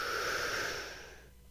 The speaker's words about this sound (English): On the count of three, take a deep breath and hold it tight. One, two, three. Inhale.